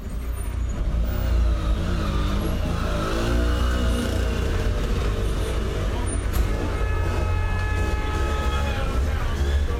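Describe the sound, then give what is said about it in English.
A car drives through city streets in Palermo, a rental car setting out across the island, with a steady, unbroken wash of engine and road noise that holds at an even level throughout. “Palermo, where we've rented a car and we have to drive across the island to go to Casavecchio”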